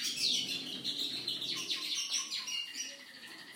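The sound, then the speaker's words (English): Java sparrow singing: a continuous stream of bright, high chirps and twittering notes running steadily for a few seconds, with no voices. “that was the Java Sparrow singing.”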